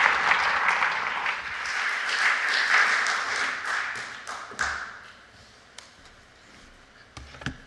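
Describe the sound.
A church fellowship audience applauds to welcome the next speaker. Lively clapping holds steady for several seconds, then thins and fades, leaving only a few scattered claps.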